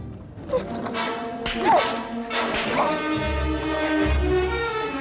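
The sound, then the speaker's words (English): A sharp slap as a man strikes a woman across the face: a single quick smack over sustained background music. “American Horse strides over to Appearing Day and slaps her across the face.”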